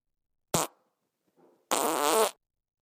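A gassy fart: a short sharp burst, a faint sputter, then a longer, loud, rumbling blast, heard alone without talk.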